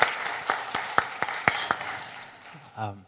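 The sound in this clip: Scattered hand claps of appreciation for a church worship team: about seven sharp, separate claps in quick succession, followed by a brief voice at the end.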